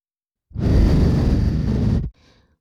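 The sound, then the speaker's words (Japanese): Breath blown softly into the ear: one long, steady, airy blow lasting about a second and a half, then a faint breathy trail. No talking. “お耳の中、ふうふうされるのって気持ちいいでしょ？”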